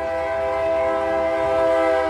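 At a depot, a train starting up sounds a sustained, loud, harmonic horn tone. The tone stays even and continuous throughout, with no break.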